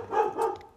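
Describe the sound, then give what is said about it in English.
A dog barking twice in quick succession, two short, mid-pitched barks of moderate loudness with no voices. “You can probably hear my dog barking.”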